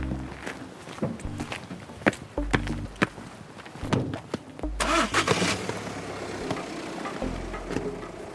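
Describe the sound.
A car engine starts and the car drives off on the way back to a farm during an organic food inspection. A steady low engine rumble builds into a louder, broader rush of driving noise after a few sharp knocks.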